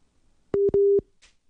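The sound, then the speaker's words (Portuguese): A telephone busy signal follows a dropped call. It sounds as two loud, flat, mid-pitched beeps in quick succession, the second longer than the first, with near silence around them. “É, agora de fato caiu a ligação, acho que ela recebeu uma outra ligação. Agora caiu mesmo. Agora caiu de fato.”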